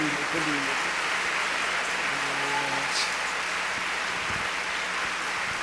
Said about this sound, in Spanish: Así que démosle un fuerte aplauso al apóstol Raúl Vargas.